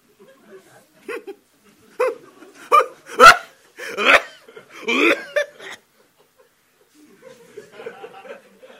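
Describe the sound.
An old man choking and coughing, a run of harsh, sputtering, gasping bursts that grows loudest in the middle and then trails off into faint, breathy splutters.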